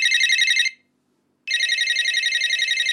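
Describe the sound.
Electronic telephone ringtone for an incoming call to a radio show: a loud, bright warbling ring, then a pause of almost a second, then a second ring that runs on to the end.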